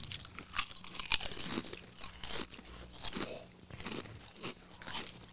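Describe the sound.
Crunching and chewing of ramen-flavored snacks: many irregular crisp crunches and bites with brief gaps, heard alone without talk.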